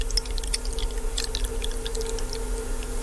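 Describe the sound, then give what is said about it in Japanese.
Hot water pours from a ceramic vessel into a teapot holding tea leaves. It makes a light, irregular trickle and splash over a steady low hum. “この注ぐ音もね、なんか少しだけ聞いていただきましたけど。”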